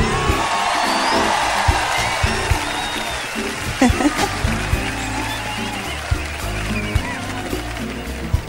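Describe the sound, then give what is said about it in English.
Audience applause and cheering for a performer being welcomed onstage: dense, sustained clapping throughout, punctuated by whoops and shouts from the crowd. “Ladies and gentlemen, please put your hands together for Fadjala.”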